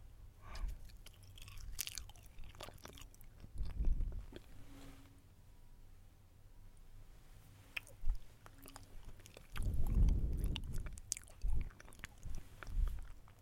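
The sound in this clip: Loud, crackly bites and crunchy chewing of a snack stick, coming in a few strong bursts with quieter chewing and pauses between them.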